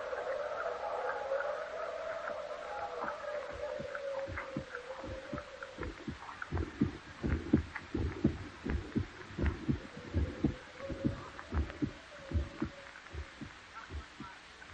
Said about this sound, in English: all the while in his rotting brain beats the hideous rhythm of that long-stilled heart.